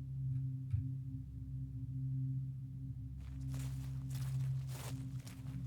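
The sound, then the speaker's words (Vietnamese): Faint shuffling footsteps outside. Soft, scraping scuffs start partway through and repeat a few times under a steady low hum. “Chợp mắt chưa được bao lâu, ở bên ngoài vang lên tiếng bước chân lảo xảo.”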